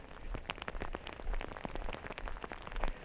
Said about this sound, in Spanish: está granizando.